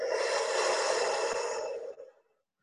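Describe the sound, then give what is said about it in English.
A single long, deep breath, airy and steady for about two seconds before tapering off into silence, with no talk over it. “Take a deep breath in and breathe it out.”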